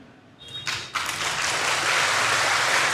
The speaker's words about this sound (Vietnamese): Nhiều người vỗ tay chứ không hiểu đâu.